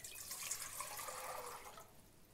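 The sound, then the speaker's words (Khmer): Water, 700 ml, poured into a cooking pot for a vegetable dish, a faint, steady splashing gush that runs for about two seconds before tapering off. “យើងត្រូវការដាក់ទឹកចំនួនគឺចំនួន700មីលីលីត្រចូលទៅក្នុងឆ្នាំងរបស់យើងនេះគឺជាទឹកដែលយើងវិលហើយចំនួន700មីលីលីត្រ”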